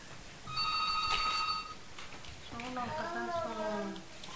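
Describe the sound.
A telephone rings with one faint, trilling electronic burst. A short pause follows, then a voice speaks briefly under steady background noise.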